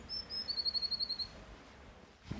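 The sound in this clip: A blue tit calls near nest boxes. Two longer, thin, high notes are followed by a quick, even run of many short high chips, all faint and alone over quiet background.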